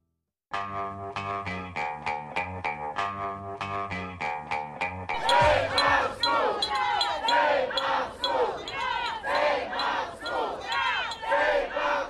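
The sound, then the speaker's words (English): Chanting from parents protesting the closure of PS 332 school in Brownsville, Brooklyn, with a run of ringing, bell-like notes at the start before a dense crowd of voices takes over in rhythmic shouted phrases. “That is the sound of people protesting the potential closure of PS 332 in Brownsville, Brooklyn, to be precise.”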